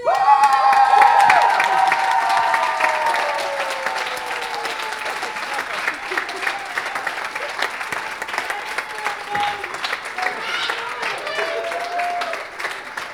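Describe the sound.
An audience at a poetry slam applauds and cheers, a loud, sustained wash of clapping that eases slightly yet keeps going, with voices heard over it.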